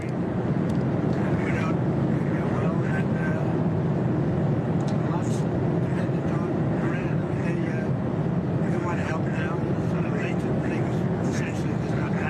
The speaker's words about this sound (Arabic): معذرة، الصوت مشوش جدا في الطائرة. الصوت مشوش جدا، لا يمكن الاستماع إلى شيء.